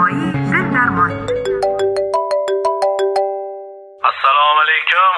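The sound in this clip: A telephone ringtone plays a bright, stepped electronic melody of repeated beeping notes for a few seconds, with voices talking just before it and again right after it stops.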